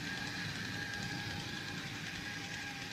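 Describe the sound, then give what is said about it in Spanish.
A newly bought toy train runs with a faint, continuous whirring rattle that stays even and unbroken throughout, with no voices. “Estoy con mi tren. ¿Te gusta? Lo acabo de comprar.”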